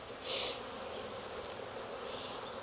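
Honeybees buzz in an opened hive while a frame is lifted out during an inspection, a steady dense drone that swells louder twice, briefly near the start and again near the end.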